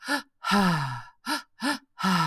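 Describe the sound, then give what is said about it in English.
Rapid mouth breathing shown by a person: quick pairs of short inhales, each pair followed by a longer exhale, repeated with no pauses. The breaths carry a voiced, sighing tone. “A very common one is where you'll do a double inhale through your mouth and then a single exhale through your mouth. And it's fairly rapid. You don't take breaks in between these breaths. And so it can sound like this”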